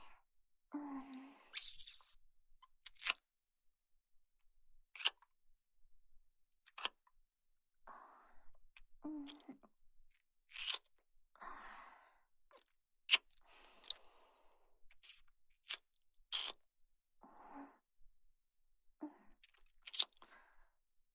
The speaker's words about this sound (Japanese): 次はご主人様の乳首を舐めさせていただきます。